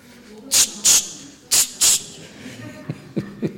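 A spray bottle releasing four short, bright hissing bursts in two quick pairs, followed by a few faint clicks.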